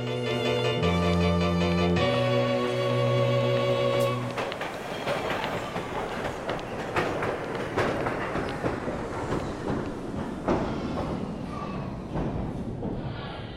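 A train rumbles through a railway station. It opens with a few seconds of steady tones, then shifts to continuous broad rumbling with faint wheel clatter, moderately quiet throughout.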